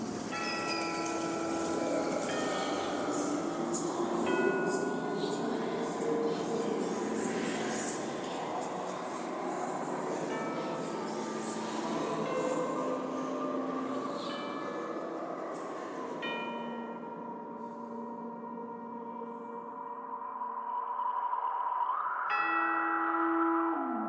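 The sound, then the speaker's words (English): Haunted Mansion ride carriages roll along their track with a steady low rumble, beneath sustained eerie organ-like tones and bell chimes that shift slowly throughout. “And now, a carriage approaches to take you into the boundless realm”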